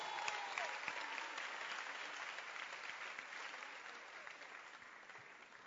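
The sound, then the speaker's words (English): A church audience claps their hands in steady, sustained applause, faint but continuous for several seconds, with no talk over it. “then clap your hands for yourself”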